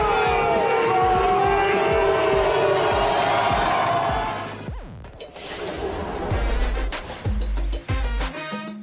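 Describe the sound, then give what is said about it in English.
Jacksonville Jaguars players celebrate after their Thursday Night Football win over the Saints. Loud shouting and cheering voices mix with a few hard smacking crashes, and the dense roar drops briefly partway through before the yelling picks up again. “Those were the sounds of the Jaguars' celebration after their Thursday Night Football win over the”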